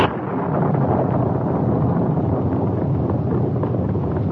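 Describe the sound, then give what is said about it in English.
The explosion blast from a mine high on a hillside comes through as a loud, sustained, low rumbling roar that fills the whole stretch without easing off. “Suddenly, there came the sound of a blast, which came from high on the hill they were skirting.”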